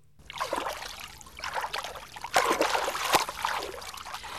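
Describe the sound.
Lake water lapping and trickling during a dragon boat training session on a mild late-summer morning: irregular swells of gentle washing noise, broken by a couple of sharper splashes.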